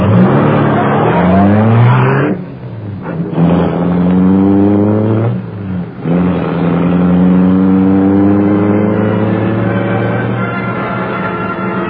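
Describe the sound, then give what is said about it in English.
A powerful car engine, the gleaming Black Beauty, roars into life. It revs loudly in rising surges, then climbs into a sustained, accelerating drone as the car speeds away. “Britt Reed pressed a button. The great car roared into life. A section of the wall in front raised automatically, then closed as the gleaming Black Beauty sped into the darkness.”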